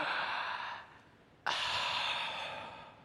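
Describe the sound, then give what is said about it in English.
Someone takes a deep breath, heard alone and fairly soft. Two long, airy rushes of breath are separated by a short pause, and the second begins abruptly. “I'll tell everyone to take a deep breath. In fact, do that with me.”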